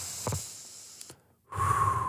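A person breathes slowly for meditation: a short, soft breath is followed by a pause and then a longer, steady, airy breath that continues to the end.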